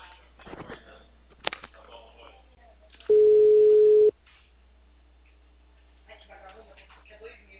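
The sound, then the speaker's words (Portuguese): An outgoing telephone call rings on the line as a single steady electronic tone of about one second. People talk before and after it. “Gente, eu vou fazer a ligação de confirmação.”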